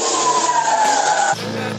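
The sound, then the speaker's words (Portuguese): Pickup truck engines revving at full throttle, a loud, sustained high whine that drops abruptly to a lower, rougher rumble near the end. “Eles estão com as caminhonetes ali, ó, acelerando ali no último e correndo no meio das bombas.”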